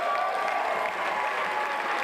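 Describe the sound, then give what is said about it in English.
Gala dinner audience applauds the event sponsors: full, dense clapping from a large crowd, steady and loud from start to finish. “So please, place your gloves on the table and slap your palms together in sustained and tumultuous applause for our event sponsors, Express Solicitors,”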